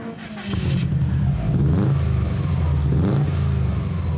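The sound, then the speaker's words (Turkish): A powerful car engine upgraded to 325 horsepower revs loudly. Its pitch climbs in rising surges over a heavy, deep rumble. “Gücünüzün 325 beygir gücüne yükseltildiğini bilmek seni memnun edecektir. İnanılmaz derecede güçlü bir motor.”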